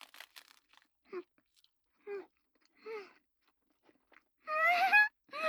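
Chewing hand-rolled sushi with salmon and nori: a few crisp, crunchy bites at the start, then quiet mouth sounds with short voiced murmurs between chews, and a louder breathy vocal sound near the end.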